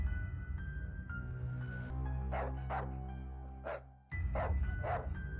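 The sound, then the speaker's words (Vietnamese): A black dog barking in a horror audio drama near dawn: several sharp barks in an uneven series over sustained low, droning music, with no talk. “Tiếng chó bất ngờ sủa vang lên, bà tự hỏi.”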